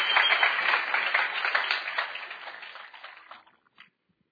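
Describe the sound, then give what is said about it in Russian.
An audience applauds to welcome a guest onstage. The dense clapping starts strong, gradually thins and fades out over a few seconds, and ends with a last scattered clap. “Хорошо, давайте бурными аплодисментами Let's поприветствуем Джонатан Уэлтон.”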